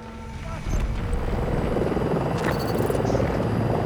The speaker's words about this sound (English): Who's in the helicopter?